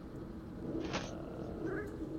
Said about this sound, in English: the cat has spoken.